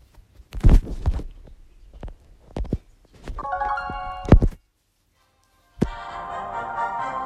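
Startup sounds of the Brawl Stars video game: several deep, punchy thuds, then a ringing tonal chime, a short gap of silence, and music that kicks in and carries on.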